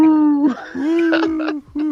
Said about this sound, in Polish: huczała sowa, zaczęła huczeć. No i tak huczy ta sowa.